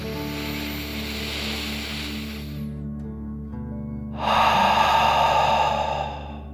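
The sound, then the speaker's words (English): A deep breath drawn in during a children's meditation breathing exercise, then a short pause and a louder, breathy exhale blown out through the mouth. “your lungs, and then out through your mouth, imagining you are breathing fire like a dragon. Ready? Deep breath in and out.”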